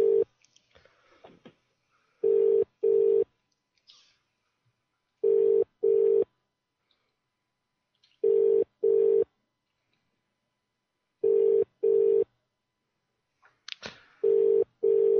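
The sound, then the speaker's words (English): A telephone ringback tone sounds on a prank phone call, in five pairs of steady low-pitched beeps that repeat about every three seconds. Faint clicks and rustles fill the quiet gaps between them. “I love the part of the show where the phone rings.”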